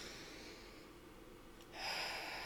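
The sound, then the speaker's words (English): A deep breath drawn in through the nose, heard alone: a soft, airy snort-like inhale that stays faint at first, then swells noticeably louder and brighter toward the end. “this is our opportunity to take a deep breath in through the nose”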